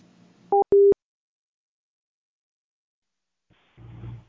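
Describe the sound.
Telephone line tones just after a call is hung up: two short, loud electronic beeps in quick succession, then silence and finally a low rumbling noise.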